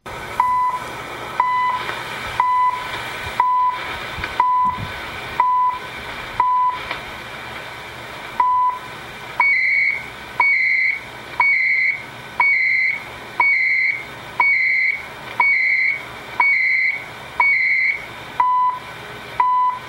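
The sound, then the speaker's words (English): The CHU time signal radio station, played back from an online video, sends short tone pips once per second over faint static, with one pip missing. Then comes a run of louder, buzzy two-tone data bursts on every second. No voice is heard. “By the way, I found CHU. I'm not sure what this is going to sound like. I don't have an audition button here, but let's see what CHU sounds like according to YouTube.”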